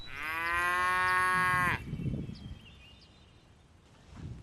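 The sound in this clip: A cow in a cattle herd being counted lets out one long, loud moo with a steady, rich tone. Low rustling and outdoor noise follow.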